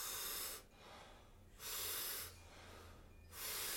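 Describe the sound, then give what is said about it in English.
Rhythmic breathing in a guided breathing exercise: deep, loud breaths in alternate with softer breaths out, forming three strong breathy hisses separated by two quieter ones. “So it's a big inhale and a soft exhale. We'll do it rhythmically together. It sounds like this.”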